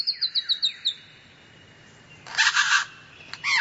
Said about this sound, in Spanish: A su sombra ensaya un maestro cantor. La larga cola tiene franjas transversales de colores negro y marrón. Es un ave de cabeza pequeña en comparación con su cuerpo. Un ave lira soberbia.